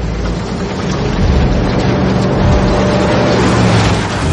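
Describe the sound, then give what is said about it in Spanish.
A truck with a partly lead-lined cab and a dosimeter on its front grille drives along a road: a loud, steady engine rumble with broad road noise, swelling slightly after the first second, then holding level. “Un camión avanza por una carretera.”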